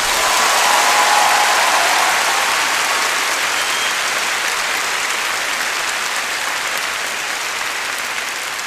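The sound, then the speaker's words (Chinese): Audience applause, a smooth, continuous wash of many hands clapping that starts full and slowly eases off in level over the nine seconds. “要掌声鼓励下咧，”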